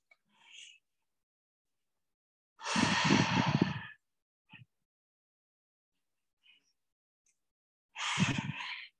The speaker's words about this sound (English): Exhale, flow. Five breaths.